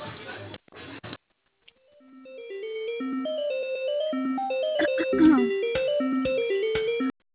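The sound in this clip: A melodic telephone tone plays on the line while a call to a café is being transferred: a string of bright electronic notes steps up and down, loud and steady after a short burst of noise at the start.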